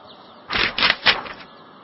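Newspaper pages rustle as the paper is handed over, with a few broad crinkling bursts of paper noise over about a second.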